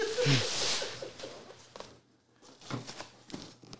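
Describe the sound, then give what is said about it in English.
Packaging being opened, giving a loud burst of crinkly rustling at the start, then quieter scattered scratches and rustles, with brief voices at the beginning. “I think this is going to open a little bit easier than the packaging from the Imperial Armory.”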